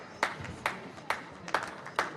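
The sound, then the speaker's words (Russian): Hand claps in a hall: five sharp, fairly faint claps at an even, unhurried rhythm, each with a short decay, like one person starting applause. “Но Салаль встал и начал аплодировать. Не глядя на него, присоединилась Арианна, а затем и весь зал.”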